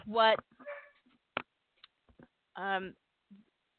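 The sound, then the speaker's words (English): A dog barks in the background: two short, sharp, harmonic-rich barks spaced a couple of seconds apart, with faint clicks and small noises between them in an otherwise quiet space. “pardon my dog barking in the background, I can't reach him and get him to shush.”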